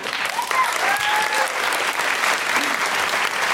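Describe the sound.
Audience applause at a comedy show, dense and steady clapping that stays loud and even from start to finish.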